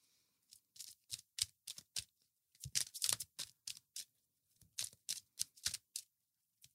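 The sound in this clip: Tarot cards being shuffled and pulled from a deck, heard as many faint, quick papery flicks and riffles that come in short clusters with brief pauses between them.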